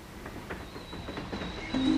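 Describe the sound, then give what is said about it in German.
A passenger train travels toward Wilhelmshaven: a steady rumbling roll with a faint rhythmic pulse and a thin, constant high whine over it, growing a little louder at the end. “Schon am nächsten Tag sitzt sie im Zug nach Wilhelmshaven.”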